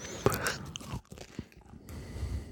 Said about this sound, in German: Das Ganze hier auf Brot, muss ich mal ausnahmsweise. Ja. Wollte ja nicht so viel Brot essen, aber das lässt sich sonst nicht so gut handeln hier.